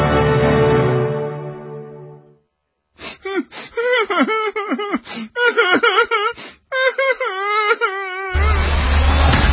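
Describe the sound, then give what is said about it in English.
Whining and whimpering vocal sound effect in a show intro: wavering, pitched cries in several short bursts, set between denser noisy passages at the start and end. “No whining.”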